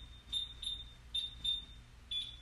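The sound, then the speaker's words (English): A home alarm, likely a smoke alarm, is going off in short, high-pitched electronic beeps. There are five in all, mostly in pairs, fairly faint over a low background rumble. “Our alarm just went off.”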